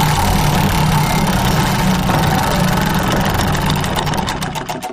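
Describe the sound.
A prize wheel spun on a game show, a loud, dense rattle of rapid ticking that slows into distinct separate clicks at the very end.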